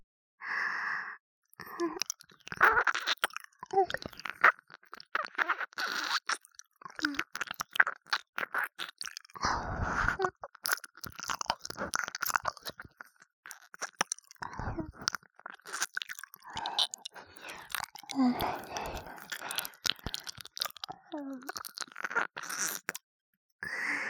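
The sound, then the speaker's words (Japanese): Wet mouth sounds of an ear being licked: many soft, close smacks, slurps and plopping bursts in an irregular rhythm, with breathy sighs between them and no talking. “いつでもなめなめさせてよね、このおいしいお耳。”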